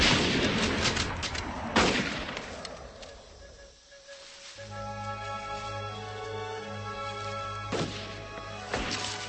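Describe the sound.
Battle gunfire: a few sharp, loud shots crack out near the start and again near the end, with a sustained tonal backdrop filling the middle stretch.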